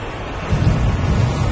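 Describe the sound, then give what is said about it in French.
Thunder rumbles about four seconds after a lightning flash, roughly a kilometre and a half away, a deep, rough roar that swells louder partway through and keeps rolling to the end. “Il y a eu 4 secondes entre l'éclair et le tonnerre, c'est ça?”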